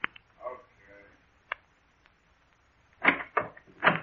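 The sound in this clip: A door being opened, with a few brief knocking clicks of the latch and handle, followed by a voice talking.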